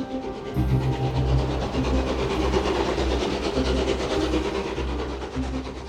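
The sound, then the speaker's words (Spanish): A train travels on rails with a steady, loud rumble and a fast rhythmic clatter of wheels under a hissing overtone, holding at an even level throughout. “Él tomó un tren hacia Toronto, donde había llegado gente de su pueblo.”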